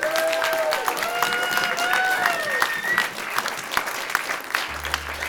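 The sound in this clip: Steady applause from a live audience welcoming a cellist onto the stage, dense clapping sustained at an even level throughout, with rising and falling whistles and whoops rising above the clapping in the first half.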